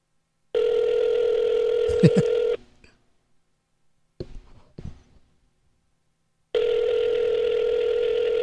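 A telephone makes a steady electronic tone while a call back is dialed. The tone cuts off, a few brief clicks and key beeps follow, then the steady tone returns.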